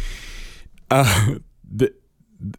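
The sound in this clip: A person clears their throat because of a sudden tickle. One loud, harsh rasp comes first, then two shorter, softer throaty bursts follow with brief silences between them.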